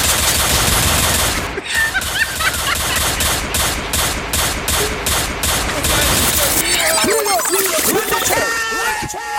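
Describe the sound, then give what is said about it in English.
Rapid gunfire from a police shootout: a fast, loud run of evenly spaced shots over a dense, busy background, which gives way to warbling, high-pitched cries. “Pull up that one. Police and in a shootout.”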